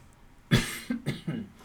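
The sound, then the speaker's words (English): Throat clearing and coughing from a man: one loud, harsh cough followed by a few shorter, rougher throat-clearing bursts in quick succession, with no speech. “trying to keep my throat clear and not get choked up while I'm talking about this.”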